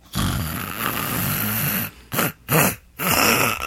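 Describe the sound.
A man's voice imitates a man snoring in bed: one long rasping snore, then three shorter snorting breaths with brief pauses between them. The snoring is loud and heard alone.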